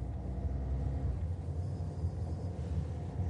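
Steady low rumble of a car being driven in a scene from the 2017 drama film Happy End. The deep, continuous engine and road drone holds at an even level without clear breaks.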